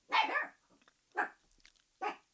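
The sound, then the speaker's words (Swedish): A small dog barks three times, sharp yappy barks spaced about a second apart with quiet between them. “det är min lilla hund Milton som vill vara med i sommarpratet.”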